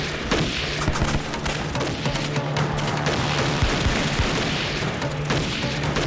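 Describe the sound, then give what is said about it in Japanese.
A loud volley of gunfire follows an order to shoot, with many rapid shots blurring into a dense, continuous crackle and boom that holds steady for several seconds, with no voices. “チンテホー、チンテホー、じゃあ撃て。”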